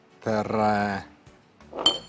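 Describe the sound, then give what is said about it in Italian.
A plate set down in a kitchen while meatballs are being prepared and fried, giving one bright, ringing clink near the end, after a short stretch of speech. “E metto un piatto.”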